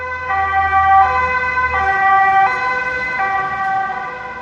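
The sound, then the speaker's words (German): A German emergency vehicle's two-tone siren horn alternates steadily between a higher and a lower pitch, loud and continuous, with a low engine rumble beneath it during the first half. “Das Einsatzhorn der Einsatzwagen wird auch Folgetonhorn genannt, weil es aus zwei verschiedenen Tönen besteht, die aufeinander folgen.”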